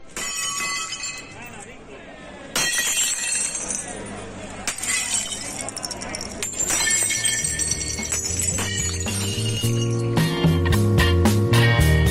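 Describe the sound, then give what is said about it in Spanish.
Restaurant owners smash plates in the street as a protest: many sharp ceramic crashes and shattering clinks come in irregular bursts, with voices heard among them. “Este es el sonido de un momento simbólico que se ha repetido por todo el país. Hosteleros rompiendo platos en la calle como gesto de desesperación de la hostelería española.”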